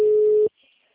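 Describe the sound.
A telephone busy signal sounds as one steady, mid-pitched electronic tone lasting about half a second, then cuts off into silence.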